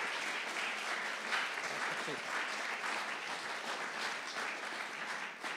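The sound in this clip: Congregation applause welcoming a speaker, a fairly faint but dense and even wash of clapping that continues unbroken throughout.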